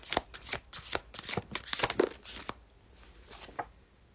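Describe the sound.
Tarot cards being shuffled, with many rapid papery flicks and riffles in a busy, uneven rhythm that grows quieter and sparser in the second half.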